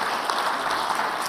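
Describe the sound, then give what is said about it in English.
A church audience claps for its pastor at the start of a service, a brief burst of steady, even applause with no voices over it. “thanks for clapping. I'm spoiled.”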